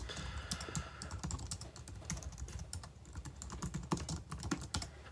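Rapid typing on a computer keyboard while writing diagnostic notes: a dense, continuous stream of many clicking keystrokes at an even, moderate level, with no talk.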